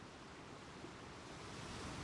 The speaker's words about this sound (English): Waves crash against them.